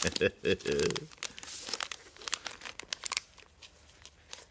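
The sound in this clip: Plastic wrapping crinkles and crackles as a small wrapped package of stickers is pulled open. Many sharp, irregular rustles and snaps follow a brief voiced sound at the start, then grow sparser and fainter.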